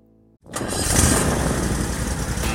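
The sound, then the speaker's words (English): A Toro Z-Master 4000 zero-turn mower engine starting up: a brief near-silence, then the engine catches and quickly rises into a loud, rough, steady running roar that holds to the end. “That's the sound of a day starting out right. I hear it every time my new Toro Z-Master 4000 Zero Turn starts up.”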